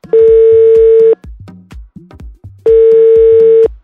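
Outgoing phone call ringback tones: two loud, steady, mid-pitched tones, each lasting about a second and separated by a gap of about one and a half seconds, with short low sounds in between.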